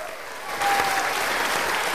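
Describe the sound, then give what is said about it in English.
Students break into applause, a dense, steady patter of many clapping hands that grows louder after a moment and holds. “applause breaks out amongst the students”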